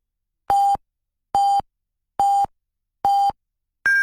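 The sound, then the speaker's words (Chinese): Five beeps from a Chinese radio station's hourly time signal, spaced evenly about a second apart. The first four are short mid-pitched tones and the fifth is higher in pitch, with silence between them. “综合广播敬请对时，依家是北京时间19:00。”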